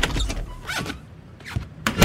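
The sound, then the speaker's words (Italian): A door is opened: a few short clunks and rattling knocks arrive in separate bursts with quiet gaps between them, and the loudest comes at the end. “Mi aiutate ad aprire la porta?”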